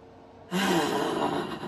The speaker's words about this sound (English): breathe in through your nose